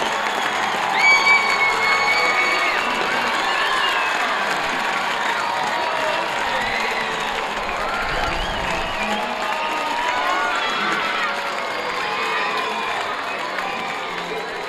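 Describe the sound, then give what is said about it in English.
A baseball crowd at a Sunday night Pelicans game cheers a two-run home run, a sustained roar of cheering, shouting and applause that stays loud for the whole stretch, with a voice faintly audible in the mix. “Ezekiel Pagan, a two-run home run. He lights up this Sunday night crowd, and the Pelicans are out to a 5-0 lead.”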